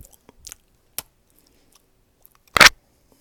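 Food is chewed in a few sparse, moist crunching bites separated by quiet gaps, with the loudest and longest crunch coming near the end.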